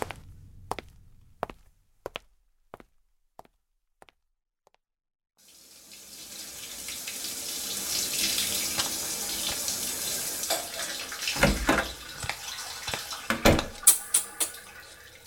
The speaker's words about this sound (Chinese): 我先去洗澡。